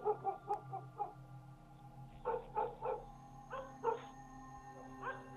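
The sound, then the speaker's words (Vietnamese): Dogs barking in a village at night: a few scattered clusters of short, faint barks come and go over a steady low hum. “Tiếng chó cắn ma thỉnh thoảng lác đác vang lên ở trong làng.”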